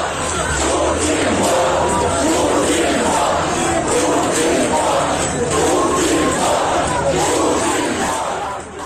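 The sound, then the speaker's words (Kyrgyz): Protest crowd in Khabarovsk chanting anti-Putin slogans such as calls for his resignation, a loud, dense roar of many voices that stays steady for the whole stretch with no pauses. “Акциядан тартылган видеолордо Путин ууру, Путин отставкага кетсин, хан жоголсун деген ураандар жаңырганын укса болот.”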